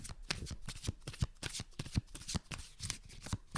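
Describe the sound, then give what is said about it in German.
A deck of cards being shuffled, with many quick papery riffles and snaps in an uneven, busy rhythm, moderately loud and with no talk over them. “Ich bin so schlecht im Mischen. Ist ja egal. Nimm dann einfach eine Karte”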